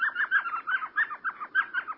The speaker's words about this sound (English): As twilight deepens along a dry West Texas stream bed, a tiny owl peers out from a hole in a sycamore tree. It's an elf owl, the smallest species of owl in the world.